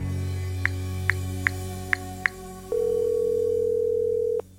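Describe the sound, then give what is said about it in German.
A telephone call being placed: a steady dial tone hums under five short keypad beeps, then a single long, even ringing tone sounds before cutting off. “Lass sie uns gleich mal anrufen.”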